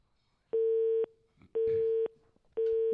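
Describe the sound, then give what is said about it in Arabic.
A telephone busy signal: three loud, steady, mid-pitched tone bursts, each about half a second long, separated by equal silent gaps in an even rhythm. “الهاتف مشغول”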